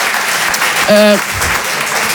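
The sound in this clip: A theatre audience claps through the whole moment, a dense, continuous patter of many hands, with a brief voice cutting in over it.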